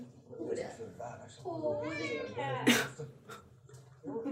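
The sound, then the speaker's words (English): Two pet cats wanting attention meow amid ongoing human talk, with a drawn-out, wavering meow rising and falling in pitch in the middle, plus a short sharp burst just after it. “So many kitties. Both the kitties want attention at the same time right now. I think that's just because cats always want attention.”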